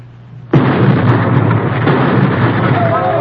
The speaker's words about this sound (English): Jan uncorks both grenades and lobs them down beside the fence.